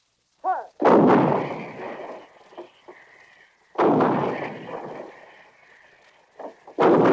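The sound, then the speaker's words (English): Heavy 155 guns shelling enemy installations near the front: three loud, deep booms spaced a few seconds apart, each rolling off slowly, with smaller pops and thuds between them. “On the way up to the front, they walk past the 155 guns, shelling enemy installations.”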